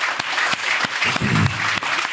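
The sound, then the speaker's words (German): Audience applause as a man receives an honorary medal, continuous fairly loud clapping with a few sharper individual claps standing out. “Einmal einen Applaus für den Schorsch.”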